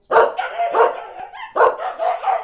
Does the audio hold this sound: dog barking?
yes